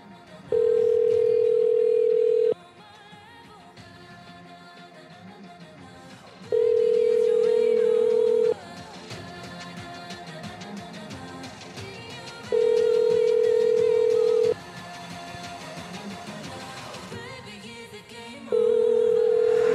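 A telephone rings out while calling a cell phone number: four steady, loud ringback tones of about two seconds each, separated by roughly four-second gaps over a continuous busy background.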